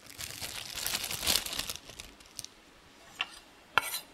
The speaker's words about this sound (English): And same for the enokis as well. I'll just cut off their ends and just tear them apart with my hands.